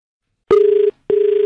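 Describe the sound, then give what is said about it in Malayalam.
Telephone ringing tone on the line before a radio phone-in call: two loud, steady, low buzzing bursts separated by a short silent gap, with nothing else audible. “ഞാൻ Akashvani Kochi F എമ്മിന്റെ phone out ഗാനോത്സവം എന്ന പരിപാടിയിൽ നിന്നാണ് വിളിക്കുന്നത്”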